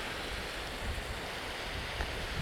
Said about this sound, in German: Wie ihr hört, hört ihr Wellen.